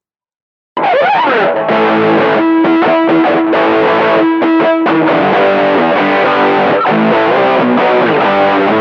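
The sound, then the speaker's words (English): A distorted rock guitar riff in a minor key bursts in after a brief silence and plays loud and unbroken, with repeating chunky chords and sustained ringing notes thickened by effects. “Yeah, great riff, and that one is like proper minor.”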